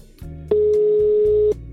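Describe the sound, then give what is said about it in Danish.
A single steady telephone ringback tone sounds as a call rings out, holding one even pitch for about a second before cutting off, alone over a low background hum. “Jeg ringer til ham.”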